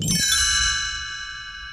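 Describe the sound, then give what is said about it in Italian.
A small bell, used as a page-turn signal for a read-along storybook, rings once with a bright, clear, high chime that slowly fades away. “Quando sentirai suonare un campanellino, così,”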